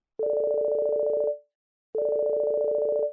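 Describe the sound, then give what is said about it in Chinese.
A mobile phone ringing in two steady electronic tone bursts, each about a second long with a short gap between, clear and moderately loud with no talk. “他的手机响个不停。”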